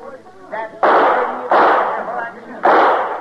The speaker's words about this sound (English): That's enough shooting.